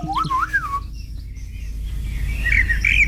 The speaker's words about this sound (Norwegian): Turdus eller svarttrost. Merula. Ja. Den ses jo vanligvis i hager, parker og skogsområder, høres ut som dette.